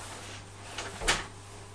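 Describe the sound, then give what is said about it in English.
A cupboard being opened: a couple of soft, brief clunks over a steady low hum, with no talk. “Now, just let me get to the cupboard.”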